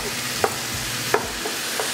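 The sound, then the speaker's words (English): Sausage frying in a pan gives a steady, even sizzle while being stirred to brown, broken by a few brief scrapes of the utensil against the pan. “So you'll want to do the sausage like this, get it nice and browned up.”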